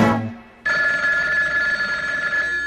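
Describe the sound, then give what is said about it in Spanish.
A telephone ringing at midnight: after a fading tone and a brief silence, a bright, steady bell-like ring starts sharply and sustains at an even, fairly loud level to the end. “Telefonito, no suenes más. Telefonito, no suenes más.”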